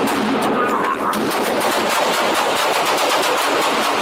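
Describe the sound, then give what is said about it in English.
Rapid gunfire rattles through a police shootout in a video game. Many sharp shots come in quick bursts over a loud, dense wash of noise. “Shots fired. Ooh. Shots fired. Suspect down. Help the officer.”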